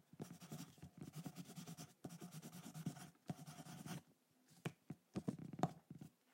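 Pen scratching on paper as someone writes by hand in a secondhand shop: long runs of dense, scratchy strokes broken by brief pauses, then a few shorter separate strokes toward the end, with no voices.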